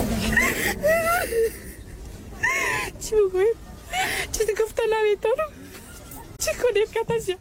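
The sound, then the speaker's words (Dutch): Afghan women barred from university cry and wail in broken bursts, their voices trembling and wavering in pitch between sobs. “Dat hartverscheurende huilen van die vrouwen die de universiteit niet meer in mochten.”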